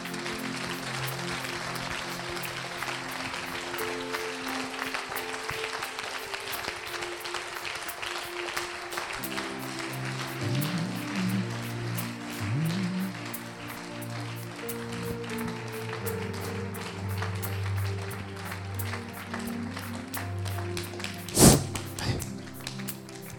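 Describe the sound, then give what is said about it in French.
An audience at Adoration of the Blessed Sacrament claps to acclaim God, many quick claps running steadily and densely throughout at a moderate, even level. “Est-ce que tu peux acclamer fortement Dieu”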